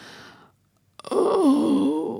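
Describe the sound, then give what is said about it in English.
A woman's deep groan aboard a ship: after a short stretch of near silence, a loud, sustained, wavering moan starts abruptly and holds to the end. “In the silence that has fallen upon the ship, the groaning becomes audible. A deep groan. A woman's voice.”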